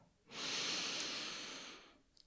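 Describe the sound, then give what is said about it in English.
A single deep breath drawn in during a guided breathing exercise: a long, steady, breathy rush of air that swells quickly, holds for well over a second, then fades, with no voice over it. “So start by taking a deep, deep, deep breath.”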